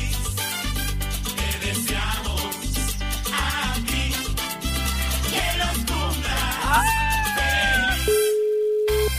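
A telephone ringing tone sounds on an outgoing call placed by radio presenters. Loud music plays first, then a gliding tone, then one steady, single-pitch ring tone near the end before a short silence.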